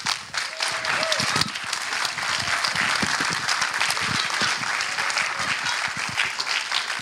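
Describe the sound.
A crowd gives dense, steady applause to welcome a filmmaker at an onstage conversation event at the Museum of the Moving Image in New York City. The massed clapping stays even and continuous for about seven seconds.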